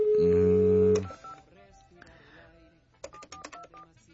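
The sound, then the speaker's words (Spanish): Telephone keypad tones from a phone being dialed: a loud, steady tone of about a second, then softer, shorter beeps toward the end. “Ya intenté marcar, pero no, nena, es el mismo número”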